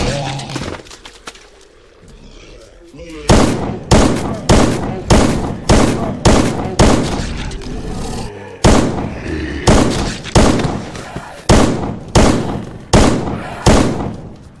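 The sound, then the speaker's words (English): Gunfire from a weapon in burst fire mode in a video game: many rapid, evenly spaced loud bursts, each a sharp cluster of shots, repeating steadily after a quieter opening stretch. “Burst fire. Oh, it's got burst fire. Problem is, that goes through much more ammo.”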